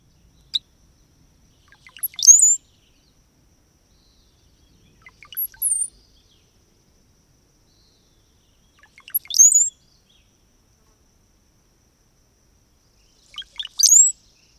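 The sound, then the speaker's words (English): Brown-headed cowbird calls: four short bursts of high, thin whistled notes, each with faint lead-in chips. They are spaced by clear silent gaps. “So one more time, here are a few different sounds from the brown-headed cowbird.”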